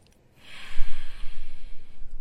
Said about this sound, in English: Go ahead and breathe it on in now.